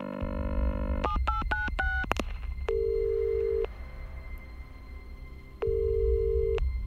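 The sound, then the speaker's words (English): A telephone being dialed to call a crew room: a quick run of touch-tone beeps, then two long, steady ringing tones separated by a pause, all over a low background hum. “When I heard the activity of the machine, I called the crew room by telephone.”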